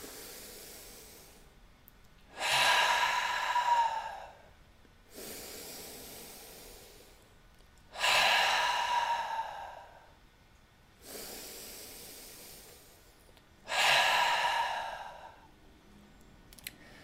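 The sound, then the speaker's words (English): Deep breaths, in through the nose and out through the mouth, run in three slow cycles. Quiet, airy passages alternate with louder, rushing hisses in a steady, unhurried rhythm, with no talking. “Let's take three breaths, pulsing with that light of divine love, of alignment and integrity. Inhale through the nose and out the mouth.”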